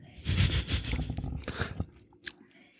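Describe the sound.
Crunchy chewing of food, a run of wet bites and crisp crunches for about two seconds, then a short pause and one brief crunch.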